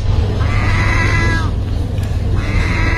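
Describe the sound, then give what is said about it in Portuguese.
An angry cat gives two drawn-out, harmonic yowling cries, the second cut off at the end, over a constant low rumbling background. “Isto é gato. Isto é um gato zangado.”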